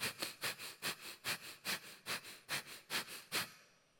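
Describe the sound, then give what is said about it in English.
Bhastrika breathing: many rapid, forceful breaths pushed through the nose in a fast, even rhythm, each a sharp, airy burst, loud and alone. “There's a breath that comes from the East called Bastrika breath, which looks a little bit like this.”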